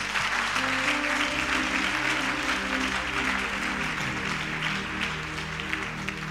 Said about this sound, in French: Est-ce qu'on peut acclamer Dieu pour sa vie